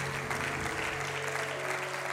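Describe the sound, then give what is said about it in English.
A church audience applauds at a Saturday night service, producing dense, continuous hand clapping that stays steady and fairly soft throughout, with a faint hum beneath it. “Let's give the Lord another hand clap for everybody showing up on a Saturday night.”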